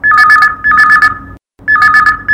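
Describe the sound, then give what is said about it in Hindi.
An incoming call sets a telephone ringing loudly, with a warbling electronic two-tone trill. Three ring bursts sound, with a short silence before the third. “आवो देखथन कि पहली phone call कौन बहने के आए है”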